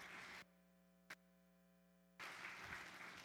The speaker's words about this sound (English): And just give the Lord a clap offering